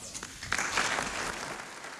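Thunderous applause from a large crowd, a dense, steady wash of many clapping hands sustained throughout at a fairly quiet level.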